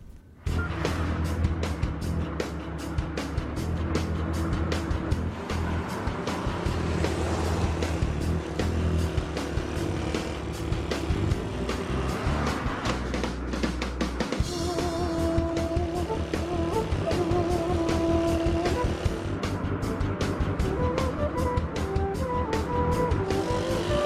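A car drives along with a steady, unbroken drone of engine and road rumble, moderately loud and continuous for the whole stretch.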